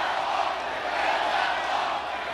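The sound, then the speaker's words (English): A crowd cheers and roars at a Trump campaign rally in South Carolina for Governor Henry McMaster, a loud, sustained, even wash of massed voices with no clear breaks. “President Trump is in South Carolina campaigning for Governor Henry McMaster. President rousing the crowd with his call for tougher borders.”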